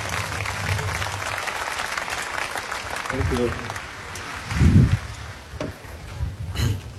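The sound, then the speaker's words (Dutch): An audience applauds to welcome an author onto the stage before a book talk. Steady clapping runs throughout, with brief bits of voice breaking through near the middle and toward the end. “Maar ik verwacht van jullie een warm welkom. Voor niemand minder dan Raoul de Jong.”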